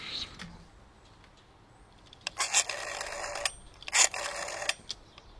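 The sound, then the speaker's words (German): A telephone rings twice, two loud, bright bursts of ringing, each about a second long, separated by a short pause. “Ah, jetzt ruft Tim Wiese bestimmt gerade wieder an.”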